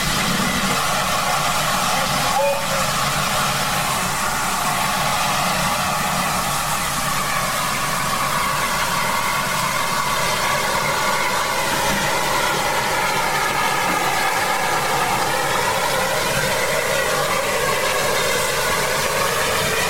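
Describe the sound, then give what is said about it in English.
A steam locomotive, number 563, pulls out of Harmer's Cross railway station with a steady, continuous heavy mechanical rumble and a low hum, faint tonal lines running through it without pause. “And this is the sound of 563 leaving Harmer's Cross.”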